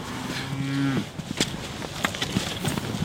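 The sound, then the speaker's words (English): A low, drawn-out moo rises from pregnant cows moving through a gate into a paddock, followed by scattered soft knocks and shuffling thuds of hooves and bodies, fairly quiet overall. “The pregnant cows move through into another paddock and one hangs back for a scratch.”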